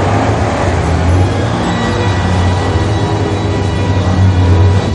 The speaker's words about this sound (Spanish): Caray, un momento, un momento, pero ¿qué es eso que viene por aquí? El blindado se dirige a la puerta